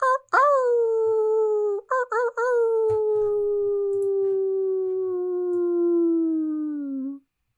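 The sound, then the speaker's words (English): A person imitates a wolf howl at a full-moon gathering. It is one long, loud, wavering howl that swoops up at the start, breaks briefly a few times, then slowly sinks in pitch over about seven seconds. “Let's finish it off with a little wolf howl.”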